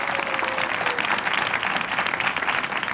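Audience applause for a woman's birthday: dense, sustained clapping that stays steady and loud from start to finish with no talk over it.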